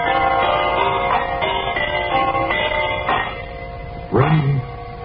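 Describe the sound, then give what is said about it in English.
Brass door chimes ring a series of bright, overlapping tones, each struck note sustaining and blending into the next at a fairly loud level. “All you have to do is turn the chimes on.”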